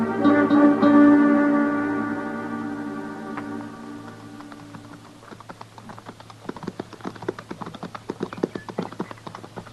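Ponies' hooves clip-clopping in many sharp, irregular clops that take over after a sustained, harmonically rich tone fades away; the hoofbeats grow a little more prominent toward the end.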